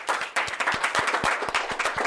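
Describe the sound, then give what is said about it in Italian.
Audience applause: a dense burst of many hands clapping, loud and steady throughout with no talk over it. “Salutiamo Matilde insieme a Martina con un applausone.”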